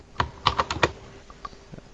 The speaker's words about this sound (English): Yeah, but that wasn't me typing just then.